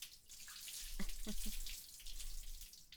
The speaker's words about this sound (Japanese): はい、流しますよ。